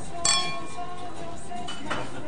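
Glasses clink in a toast between a couple at a holiday meal, a few bright, sharp strikes with a lingering glassy ring and soft table clatter between them.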